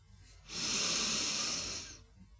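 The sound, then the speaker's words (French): A deep, slow inhalation through the nose during an energizing breathing exercise, drawn in to fill the upper lungs. One long, airy hiss of about one and a half seconds swells from quiet, holds steady, then fades, with no voices. “Maintenant, prenez une grande inspiration par le nez, en remplissant aussi le haut des poumons.”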